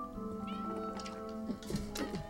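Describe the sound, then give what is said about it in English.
Cats meowing: a few drawn-out, wavering meows rise and fall in pitch, with the later cries overlapping and growing more insistent, heard clearly with no voices. “don't play with the kitties. No, no. Don't play with the kitties.”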